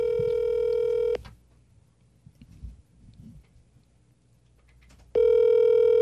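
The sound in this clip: A telephone call rings out on the caller's end. Two long, loud, buzzing ringback tones are separated by about four seconds of near-silence, with faint background noise between them.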